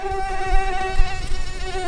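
A mosquito buzzes in a continuous, high, thin whine with a rich harmonic edge, holding steady throughout with slight wavering and faint low thumps beneath.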